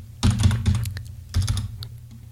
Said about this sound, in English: I got to be able to type here.